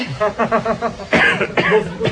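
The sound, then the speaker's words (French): A few harsh coughs break out in the dim air beside a camel-driven sesame or mustard oil press in a souk, coming in rough bursts close together. “Pourquoi on tousse? Ça doit être le sésame. Ou la moutarde, plutôt.”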